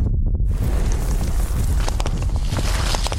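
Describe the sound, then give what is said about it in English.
An earthquake rumble: a loud, continuous, roaring low drone that begins after a brief quiet moment, with rough crackling texture building in its second half. “The earth quaked.”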